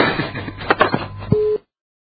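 A single short, steady telephone busy-signal tone sounds after a phone receiver is hung up. A brief burst of muffled noise comes just before the tone, and then the line goes silent.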